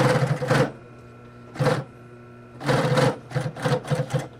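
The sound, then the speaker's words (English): A double-needle sewing machine stitches two parallel decorative lines on boots. Its rapid clatter comes in several bursts of different lengths, separated by short pauses with a faint steady hum between them. “It's decorative and makes the boots a lot stronger too. So it's shooting out 2 parallel lines of stitchery.”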